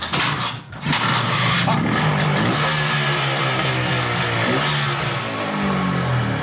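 An old, largely original motorcycle is kick-started after the fuel tap is opened and the choke set, then its engine runs with a loud, steady low putter that continues to the end.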